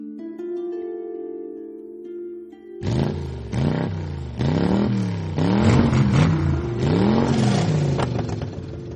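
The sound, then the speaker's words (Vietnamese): A motorcycle exhaust revs late at night in a sleeping residential neighbourhood, with loud repeated bursts of throttle that swoop up and down in pitch. A steady low droning tone comes before the revving. “Hơn 9 giờ tối, khi cả khu xóm đã yên giấc ngủ sau một ngày dài mưu sinh đầy mệt mỏi, thì tiếng bô xe máy nẹt chân trời làm xáo động cả bầu trời đêm vắng vẻ.”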